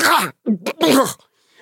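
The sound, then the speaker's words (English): A voice imitates a goblin choking and coughing: a few rough, strained vocal bursts, loud and raspy, breaking off abruptly before a quiet tail. “The boom awakens the sleeping goblin, who begins choking and coughing.”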